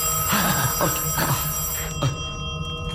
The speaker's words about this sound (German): Heben Sie ab. Der Anruf ist doch für Sie.